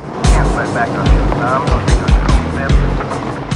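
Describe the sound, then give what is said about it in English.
A car drives in through the gates of a petrol storage yard. A low engine rumble carries repeated bumping thumps in a loose rhythm, with talk running over it. “Mark drives in through the gates.”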